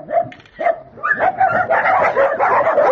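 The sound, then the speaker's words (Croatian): Dogs barking at an animal shelter that holds about 200 dogs. Mid-pitched barks and yips start out sparse, then thicken into a loud, continuous, overlapping clamor. “Jovica Dreković iz Draževačkog azila kaže da je na tom mestu oko 200 pasa”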